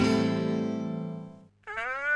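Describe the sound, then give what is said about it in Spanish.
A cat meows twice in a cat food advertisement. The first meow is a long, drawn-out cry that sinks slightly in pitch, and after a short pause a higher second cry rises at the end. “Si quieres a tu gato, tenés que darle lo mejor.”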